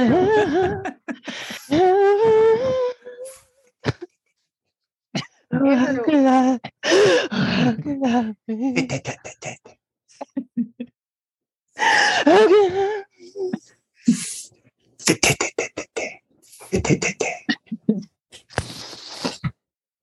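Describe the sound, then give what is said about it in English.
A person crying, with sobbing vocal bursts, gasps and whimpering breaths coming in many uneven bursts separated by short pauses, with a wavering, strained voice throughout. “I'm sorry. I'm crying. I'm crying. I'm sorry.”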